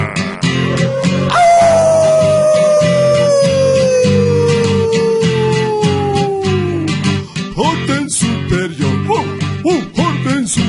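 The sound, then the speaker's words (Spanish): People howl on command in one long, drawn-out tone that glides slowly downward over several seconds, heard over loud rhythmic music with a steady beat. “Ahora sí, atención, todas las tropas. ¡Aullar!”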